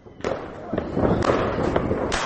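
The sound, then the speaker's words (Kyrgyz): Colourful Chinese fireworks crackle and explode over Bishkek during a New Year's night celebration: a few sharp bursts ring out over a dense, continuous crackling that barely lets up. “Бишкекте түнкү саат 11:00 баштап эле Кытайдын кооз түстүү жардыргычтары тарсылдап жарылып турду.”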